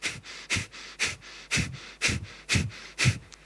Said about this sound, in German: Genauso kannst du auch wieder dein Prana erzeugen über Kapalabhati